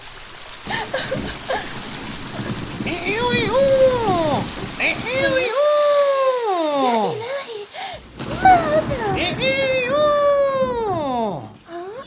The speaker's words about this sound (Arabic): لقد توقف المطر، الحمد لله توقف المطر